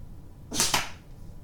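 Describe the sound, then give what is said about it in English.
A dart is shot at a 70 millimeter target from 5 meters: a short airy whoosh with two quick peaks close together, standing out against a quiet background. “So 5 meters away, 70 millimeter target. I'm going to shoot 5 darts. We're going to see how well I do.”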